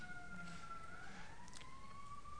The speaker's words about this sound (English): There's a lot of sirens going past.